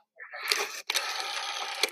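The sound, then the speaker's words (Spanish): Someone dials an old-style telephone, giving two stretches of buzzy mechanical whirring and clicking separated by a short silent gap. “Mira, lo voy a marcar. Sí, pásame. Lo voy a marcar.”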